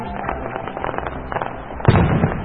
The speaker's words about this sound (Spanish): Vamos a mirar estos fuegos artificiales que deslumbran al mundo. ¡Upa! Miren lo que hace, miren cómo explotó.